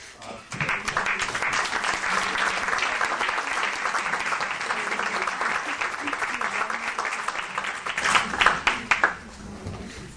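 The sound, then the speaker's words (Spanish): Warm audience applause welcoming a lecturer at a talk on culture and development. Dense, steady clapping starts abruptly and holds for several seconds, then thins into a few louder scattered claps before fading. “Sin más, por favor, damos un cálido aplauso.”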